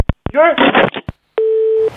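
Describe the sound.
A steady electronic beep sounds on a telephone line, one sustained, even tone lasting about half a second. Before it come a few short clicks and a brief voice-like sound.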